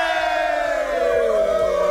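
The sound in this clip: A crowd cheers "hooray" as a sound effect, loud massed shouting and whooping that runs continuously for two seconds.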